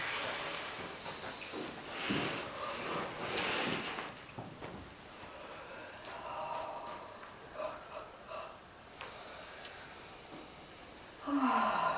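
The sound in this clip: Deep inhalation as a person rises to stand during a guided relaxation exercise, a soft airy hiss that swells and fades, followed by a few fainter breaths over a quiet background.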